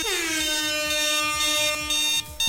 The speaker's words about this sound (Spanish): No despiertan. Les pongo la alarma, les pongo la corneta